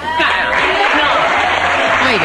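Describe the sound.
Applause from a crowd of adults, a thick, continuous wash of clapping blended with voices, loud and steady from start to finish.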